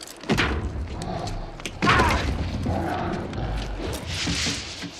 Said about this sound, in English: The digger trundles on.